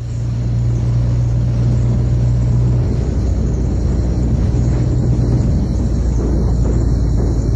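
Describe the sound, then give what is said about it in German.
A desert truck's engine roars as it drives fast, a loud, steady, rumbling drone throughout. A low hum underneath fades out partway through. “Linda Lovely fährt ihren Wüsten-LKW so schnell, als wolle sie eine Wüstenrallye gewinnen”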